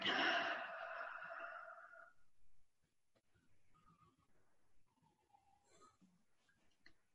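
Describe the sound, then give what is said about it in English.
A deep breath in and out: a long, airy breathy rush that fades after about two seconds into faint, quiet breathing. “Deep breath in and deep breath out.”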